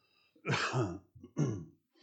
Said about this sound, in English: not the only one that has a cough, it seems